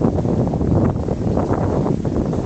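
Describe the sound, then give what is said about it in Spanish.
Strong wind blowing, a continuous loud rush and rumble with uneven gusts buffeting throughout, heavy in the low end, with no other distinct sounds standing out. “un viento terrible”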